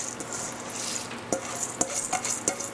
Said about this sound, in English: Go ahead and add our rice in here.